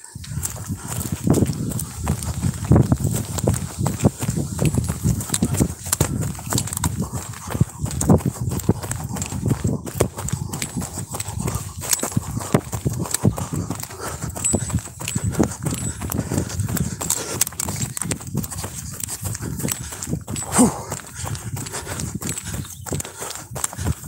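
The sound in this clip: Footsteps of someone jogging outdoors pound in a steady, quick rhythm throughout, mixed with constant rustling and low thumping from camera movement.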